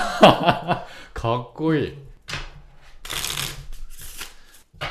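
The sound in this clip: Playing cards shuffled by hand for a card trick, a few brisk papery bursts of rapid flicking that follow people talking and chuckling.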